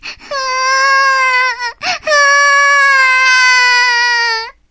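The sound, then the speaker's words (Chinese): A young child sitting on the floor and crying: two long, high, steady wails broken by a brief sharp breath in the middle, loud and without talk. “小布丁说着，就坐在地上哭了起来。”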